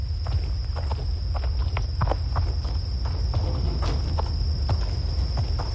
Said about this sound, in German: Komm, wir gehen mal um den Brunnen herum und leuchten mit den Taschenlampen alles ab.